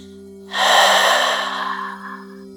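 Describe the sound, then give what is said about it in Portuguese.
One long exhale during a guided breathing exercise: a loud, airy breath out that starts abruptly and fades slowly over about two seconds, above a soft, sustained musical drone. “Mais uma vez, inspirando, 4, 3, 2, 1, segure, 3, 2, 1, e expire.”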